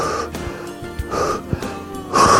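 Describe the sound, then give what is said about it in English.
A few deep, forceful breaths drawn in and pushed out by a person demonstrating a lung-opening breathing exercise. They come as loud, close bursts with a gasping, slightly wheezy edge, separated by short pauses. “Big breath in, and then you go”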